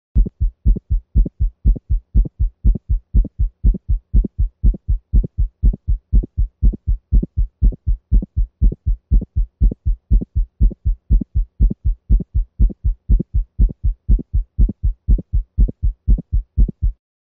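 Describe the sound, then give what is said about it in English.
Simulated dog heartbeat with an aortic ejection sound from aortic valve stenosis, at 120 beats per minute: a fast, steady train of low thumps in a lub-click-dup cadence that repeats evenly throughout, with no voices. “We will now listen at the aortic valve region to an aortic ejection sound as it might sound in a dog with aortic valve stenosis.”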